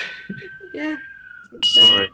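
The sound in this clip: A fire alarm goes off with a steady, piercing electronic tone that sounds continuously beneath people talking, then rises to a higher, shriller tone near the end.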